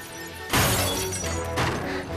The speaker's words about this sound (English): picks up a chair and uses it to smash a window.